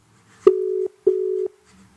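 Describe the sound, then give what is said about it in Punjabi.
Telephone ringback tone while calling someone back after no answer: two clear, low, steady buzzing tones, each under half a second with a short gap between them, then quiet. “ਚੱਕਿਆ ਨਹੀਂ ਮੁੰਡੇ ਨੇ phone ਦੁਬਾਰਾ ਕਰੀਏ”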